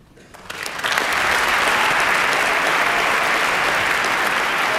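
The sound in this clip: Studio audience applause in Studio 4 for a performer who rises to thank them, starting faintly, swelling within the first second into loud, sustained clapping from many hands that holds steady to the end.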